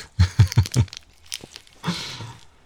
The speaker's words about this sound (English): Let's unwrap this thing. Looks tasty, doesn't it?